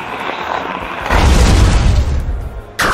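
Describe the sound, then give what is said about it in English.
Booming effect of the Ghost-type special move Psycho Trick in a monster-battling video game: a rumbling roar that swells into a heavy low boom, fades, then ends with a sharp bright burst. “Mortrex used Psycho Trick.”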